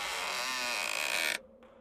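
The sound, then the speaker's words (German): A heavy crypt door creaks open in one loud, sustained grinding creak that cuts off abruptly and leaves a faint tail. “Mit zitternden Beinen steige ich hinunter und öffne die schwere Tür.”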